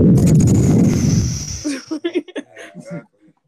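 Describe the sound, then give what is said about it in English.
An explosion sound effect for brains exploding bursts out as a loud, noisy rumble lasting about a second and a half, then fades into a few short chuckling bursts. “Hang on, let me do the sound where our brains explode.”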